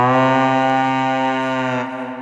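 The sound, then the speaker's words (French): A horn or conch blast used to evoke the Vikings: one long, steady, low and richly buzzing tone held for nearly two seconds, then tapering off softly at the end. “Ici, le son d'une corne ou d'une conque pour symboliser les Vikings.”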